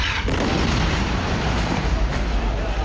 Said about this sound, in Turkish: Cibaliye mülteci kampında bir ev hedef alındı. Bölgede yaşanan patlama anı amatör kameralara yansıdı.